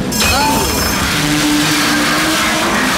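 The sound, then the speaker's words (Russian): Tram approaching on rails: a loud, continuous rumble with thin whining tones that hold and shift slightly in pitch. The dense, steady noise carries through without any break. “увидел, что навстречу едет трамвай.”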